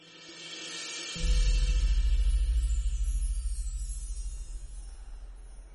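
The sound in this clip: Train pulling into Abbots Cross station: a deep, heavy rumble starts abruptly after about a second and keeps going with a steady pulsing throb, alone without voices.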